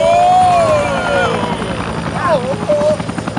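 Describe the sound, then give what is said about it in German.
Helicopter swaying in a gust of wind during a rescue: a loud, continuous rotor and engine drone with wavering tones that dip and swell as it moves. “Vorsicht, der Helikopter schwankt in der Windböe.”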